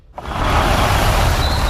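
An electric Jeep Adventure driving, heard as a broad, rushing roar that starts abruptly and holds at a steady, fairly loud level, with a faint high whine appearing near the end.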